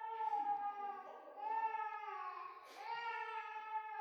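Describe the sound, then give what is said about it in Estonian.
A child crying in long, high, wavering wails that hold steady in loudness with a few brief dips, with no other sounds around them. “Lasta nutab.”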